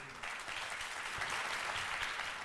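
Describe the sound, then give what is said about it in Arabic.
Audience applause welcoming student ambassadors: dense, even clapping that starts abruptly after a brief pause and holds steady to the end. “والآن إلى السفراء والسفيرات، السفيرات والسفراء، تعالوا نتعرف عليهم بتصفيق عارم من الجمهور.”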